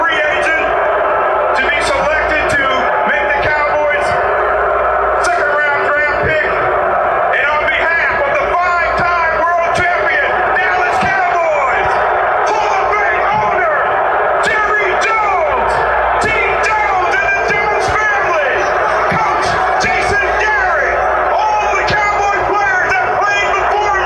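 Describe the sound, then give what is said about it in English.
Philadelphia fans booing at the draft: a loud, dense mass of crowd voices with scattered yells and whoops, sustained without pause. “That sound is the Philly fans booing. Sounds like Subway or something. It does, doesn't it? Yeah, it's pretty amazing. That was at the draft? That was at the draft.”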